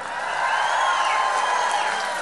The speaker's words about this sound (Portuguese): Uma salva de palmas pro Correria.